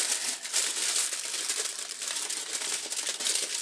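Silver foil crinkles as it is folded over and over around a piece of veal: a continuous, bright, papery rustle of fairly even loudness with small crackling peaks throughout, and no voices.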